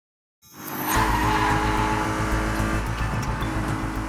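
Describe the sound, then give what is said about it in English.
A car engine roars as it races along back roads around Austin, bursting in abruptly and holding a loud, rough, steady drone. “26-year-old Ross Ulbricht gripped the steering wheel as he raced through Austin's back roads”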